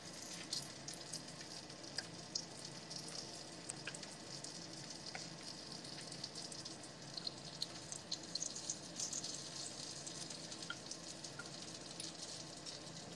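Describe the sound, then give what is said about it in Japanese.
Food starts to fry in a pan and partly sticks to it, giving a steady, dense crackling sizzle with scattered sharp pops throughout and no talk. “ちょっとくっついてんだけど。失敗だな。ちょっと焼き始めたんだけど。”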